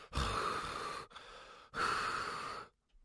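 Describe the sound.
A voice imitates the heavy, out-of-breath breathing of winded professional golfers walking a golf course: two long, loud, rasping breaths separated by a brief pause.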